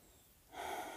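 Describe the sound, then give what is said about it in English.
A person outdoors beneath trees takes one faint breath, a soft airy inhale that starts halfway through after near silence and holds to the end. “I'm just taking a few breaths”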